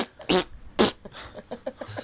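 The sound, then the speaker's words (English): Two loud, raspy fart sounds burst out in quick succession, followed by a run of softer, short sputtering noises. “And a fart. And a fart.”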